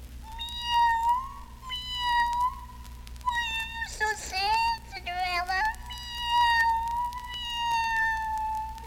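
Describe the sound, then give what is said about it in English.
A kitten meows several times in drawn-out, wavering, fairly high calls, with a steady tone running beneath them. “she heard the little pussycat meow and say,”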